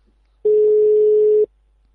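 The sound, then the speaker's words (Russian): A single telephone line beep: one steady, mid-pitched tone lasting about a second, loud and clean, with near silence before and after. “Гудки какие-то гудят.”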